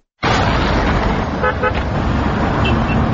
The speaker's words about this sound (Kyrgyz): Бул Жалал абад Сузак айлампасында майыны көргөндө жай жүргөн унаалар.